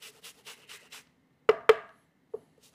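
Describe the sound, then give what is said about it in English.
An onion being grated by hand for a quick pasta sauce: five short, evenly spaced rasping strokes, then three sharp knocks. “I'm going to grate as much as an onion as I can without hurting my hand.”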